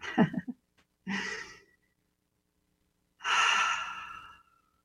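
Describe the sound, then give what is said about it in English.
Deep breaths taken during a guided relaxation exercise: a few soft, airy breaths separated by silence, the last one long and full as it slowly tails off. No one speaks. “So nice deep breath.”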